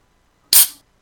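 A can of premium lager cracks open in a single sharp, bright burst that fades into a short fizzing hiss within a fraction of a second. It is heard alone against silence.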